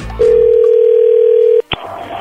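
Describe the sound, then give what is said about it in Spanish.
A steady telephone tone sounds while a call is being dialed: one long, even, unbroken hum lasting over a second, cut off by a short click, then faint background noise. “ya le estamos marcando”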